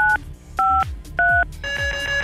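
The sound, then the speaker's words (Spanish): Touch-tone keypad beeps dial 953 on a telephone, each a short clear two-tone burst, followed by a longer steady tone. “Bueno, pues marca 953 ahí en el teléfono para que aquí la computadora haga lo suyo.”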